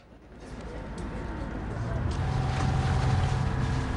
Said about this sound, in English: Water splashes away from the tail end of a lobster yacht that sets off from the dock.